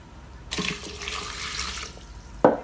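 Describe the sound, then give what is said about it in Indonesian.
Water pours from a glass into a blender jar, a steady splashing stream lasting about a second and a half, followed by a single brief knock. “Dan jangan lupa kita tambahkan 1 gelas air.”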